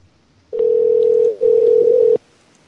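A telephone tone sounds while calling someone, a single steady mid-pitched hum lasting under two seconds with one brief dip partway through, then silence.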